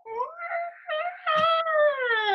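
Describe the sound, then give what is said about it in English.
High-pitched, dolphin-like squeals from a baby amid office noise, a few tonal cries in quick succession, the last one climbing steadily in pitch. “she starts making what we ultimately affectionately referred to as dolphin sounds, right? She just in the middle of the day and all the noise, she just go,”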